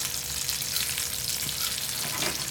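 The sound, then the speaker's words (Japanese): Stuffed olives shallow-fry in a few spoonfuls of oil and are rolled around the pan as they cook, giving a dense, even sizzling hiss with no talk. “転がしながら揚げ焼きみたいな感じですね”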